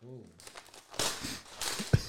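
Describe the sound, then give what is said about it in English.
Crinkling and tearing of butcher paper as a slab of meat is unwrapped: quiet rustling swells into a few louder crackling bursts, ending in a sharp thud, with a brief voice at the start. “I feel like it's Christmas. I'm literally unwrapping it.”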